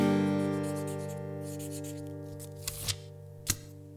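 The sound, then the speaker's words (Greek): A pen scratches across small paper Post-it notes in quick scribbling strokes over a steady tonal music bed, followed by a few short, sharp scrapes and taps toward the end. “Γυρνάω στις Αθήνα, στη σοκάκια και γράφω όλα τα εσωψυχά μου σε χαρτάκια.”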